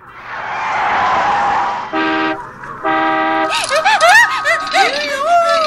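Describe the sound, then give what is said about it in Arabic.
A speeding car rushes past, nearly running someone over: a loud rushing engine noise, then two sharp horn blasts, followed by voices. “يبدو أنك لا تعرف إشارات المرور، فقد كادت السيارة تدهسك. أنا أيضا لم أصدق أنني نجوت من السيارة، كانت سريعة جدا وكادت تدهسني.”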